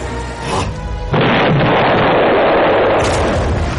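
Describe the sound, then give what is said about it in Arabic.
Grenade explosions and gunfire from a battle scene in an Arabic-language radio drama. A low rumble leads into a sudden, loud blast about a second in, which becomes a sustained, heavy roar of detonations. “القنابل اللي سعادتك بترميها منعتهم يطلعوا، لكن برضو لسه بيرموا علينا قنابل من تحت.”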